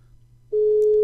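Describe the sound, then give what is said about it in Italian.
A single steady telephone ringing tone on an outgoing call, mid-pitched and clear, begins after half a second of faint low hum and holds to the end. “E adesso proviamo a intercettarlo al telefono, sperando che non ci siano problemi di linea. Adesso chiamiamo Gerarmando e lo aspettiamo al telefono.”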